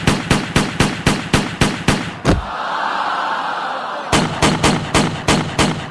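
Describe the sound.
Gunfire cracks out in rapid, evenly spaced shots, ending in one heavier blast. A hissing lull of about two seconds follows before the quick volley resumes at the same fast pace.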